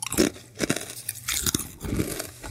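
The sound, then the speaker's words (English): Biting and crunching into a Mesa crisp: a few sharp, crackling bites followed by bursts of loud, crunchy chewing, heard alone with no talk. “you just going to eat a Mesa crisp without me? You got to ASMR it.”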